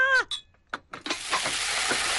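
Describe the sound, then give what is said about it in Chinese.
Chili peppers stir-frying in an iron wok give off a loud, steady sizzle. A few brief sharp sounds come first, then a continuous crackling hiss. “油煎的脆响在巷口低语，铁锅正翻炒着辣椒的热烈”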